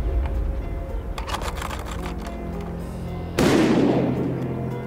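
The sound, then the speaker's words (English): A gunshot fired at clay pigeons during clay pigeon shooting: one sharp, loud blast with a spreading decay, following a few seconds of steady outdoor background noise and scattered clicks. “Nice shot, man. Nice shot. Man. Yeah, I've still got it. Still got it. While Martin Dillon was reloading the machine with clay pigeons,”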